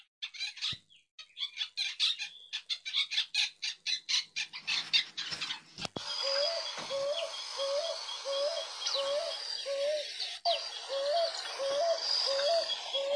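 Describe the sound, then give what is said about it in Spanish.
Picazuro pigeon, a robust short-legged ground-feeding pigeon, calling: a run of rapid chirping pulses gives way to a steady, evenly spaced series of low, hooting coos. “La paloma picazuró es un ave robusta de patas cortas, camina por el suelo para encontrar granos y semillas”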